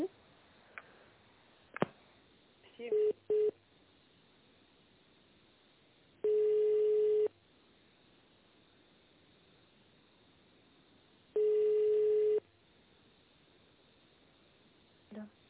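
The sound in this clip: Telephone tones while a call is being transferred: a click, two short beeps, then two long, steady mid-pitched tones about five seconds apart over faint line hiss.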